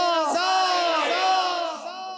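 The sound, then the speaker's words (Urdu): A crowd at a Mawlid bait bazi poetry contest shouts a slogan back in response, with a few loud, sustained unison shouts in quick succession. “شروع کرتے ہیں پہلا round بیت بازی، بھرپور نعرے کا جواب دیجیے.”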